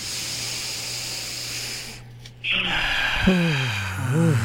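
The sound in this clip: A deep breath drawn all the way in during a guided breathing exercise, heard as a sudden airy hiss after a low steady hum, with a voiced sound rising and falling after it.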